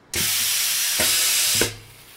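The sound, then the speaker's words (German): Compressed air hisses into the cylinder of an olfactometer, pressing out an odour sample bag for a smell test: a loud, steady rush of hiss lasting about a second and a half, with a couple of brief pulses before it cuts off. “Drückt man nun auf einen Auslöseknopf, zischt Druckluft in den Zylinder und presst den Probenbeutel aus.”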